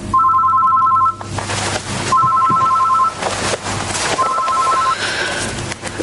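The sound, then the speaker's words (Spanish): A telephone rings in the morning, waking the household. Three loud electronic ring bursts sound, separated by short pauses, over a low steady hum. “mañana siguiente les despierta el teléfono.”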